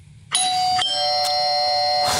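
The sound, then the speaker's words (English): A doorbell ringing with a ding-dong chime: bright tones strike and sustain with a few renewed strikes, loud and ringing on without voices. “I can't turn the blooming thing off now. They don't like ringing doorbells.”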